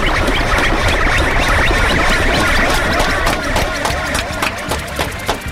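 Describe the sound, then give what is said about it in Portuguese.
Applause and cheering from an audience at the Grito Rock São Carlos rock festival: a dense, loud, continuous wash of clapping and crowd noise that thins slightly toward the end. “Uma salva de palmas pro Gurizote!”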